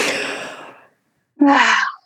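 Deep breathing: a long, breathy rush of air that fades into silence, then a short, sharp, partly voiced gasp-like intake of breath. No one speaks.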